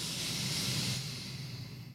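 A slow, deep breath drawn in during a guided relaxation exercise: a steady, airy hiss lasting about two seconds that eases off slightly toward the end, with no talking over it.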